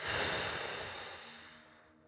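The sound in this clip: A single long exhale during a breathing exercise: a soft, airy rush of breath that starts strong and slowly fades to near silence over about two seconds.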